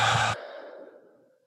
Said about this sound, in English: Everybody just take a big, deep breath. And just let it out.